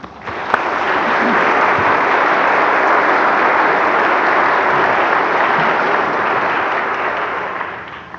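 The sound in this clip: Audience applause welcomes a doctor taking the stage to speak about aging. Dense clapping from many hands swells in quickly, holds steady and loud, then thins slightly as it tapers near the end.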